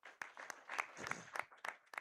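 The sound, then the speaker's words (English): Faint, scattered clapping from a small audience of students at an evangelism gathering, a few hands striking in an uneven rhythm. “All right, a big hand for Kunda.”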